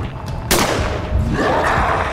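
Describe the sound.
A single rifle gunshot cracks sharply out of a background hiss, then trails off into a rough rumbling decay that lasts over a second.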